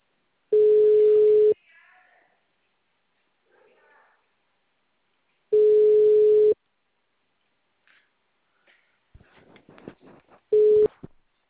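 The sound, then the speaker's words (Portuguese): Telephone ringback tone while a call is being placed: steady mid-pitched beeps about a second long, repeating every five seconds, three pulses with the last cut short and faint handling noises between them. “Eu tô ligando pro seu homem aqui,”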